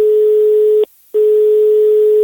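Telephone tone as a neighbor calls: a loud, steady low electronic hum that cuts off for a short gap, then resumes unchanged.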